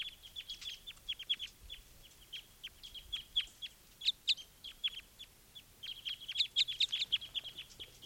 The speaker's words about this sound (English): One of the wild birds is looking down at the pine cones, and this is bird 395 calling, type 5.